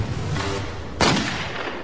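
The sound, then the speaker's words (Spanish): A single loud gunshot from a typical police revolver cracks out sharply, then trails off in a short, rough decay. “Primero dispararé un revólver típico de policía con Toby.”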